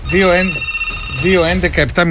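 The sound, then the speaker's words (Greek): A telephone ringing during a live radio call-in, a high, steady ring heard under loud talking voices. “Να σηκώσουμε το τηλέφωνο”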